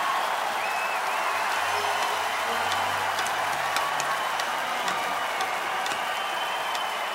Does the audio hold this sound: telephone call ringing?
no